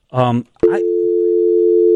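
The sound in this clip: A telephone busy signal after hanging up on a caller: a short voice, then a click and a steady, unbroken mid-pitched tone for over a second, ending with another click.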